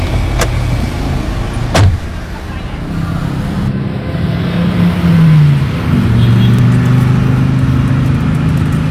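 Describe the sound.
A car's engine runs as it pulls away, a low steady drone with a couple of sharp clicks near the start.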